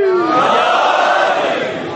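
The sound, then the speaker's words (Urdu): A crowd at a religious gathering shouts a slogan in unison, loud sustained massed voices that ease off slightly near the end. “دونوں ہاتھ بلند کر کے نعرہ حاضری.”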